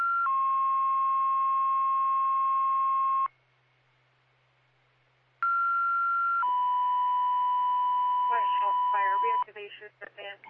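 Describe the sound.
Fire dispatch radio alert tones for Luzerne Fire: two sequences separated by a pause of about two seconds, each a brief higher tone followed by a long, steady lower tone. A voice then speaks over the radio, with a low hum underneath throughout.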